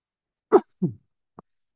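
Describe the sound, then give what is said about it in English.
A single sneeze: a sharp, loud burst followed quickly by a lower, softer second burst, then one faint click, with silence around it and no other sounds. “Excuse me, I sneezed.”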